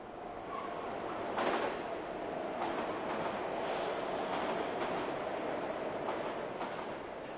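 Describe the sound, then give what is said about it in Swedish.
A train pulls away from an empty platform at the Kymlinge station after its doors close. A steady rumble and hiss of rail noise runs throughout, with a few faint clicks and no voices. “men när dörrarna stängs och tåget går är det tomt.”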